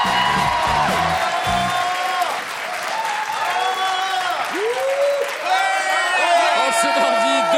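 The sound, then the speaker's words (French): Studio audience applause and cheering, dense continuous clapping with whoops and shouts rising above it, loud and sustained across the whole stretch. “Applaudissements pour l'immense Daniel Morin et le fabuleux Richard Larnac.”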